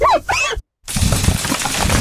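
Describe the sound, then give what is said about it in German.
A stone chip cracking a car windscreen as a glass-damage effect: a short tonal burst, a brief silence, then a sustained, loud, noisy crackle of breaking glass. “Steinschlag. Scheibe gerissen.”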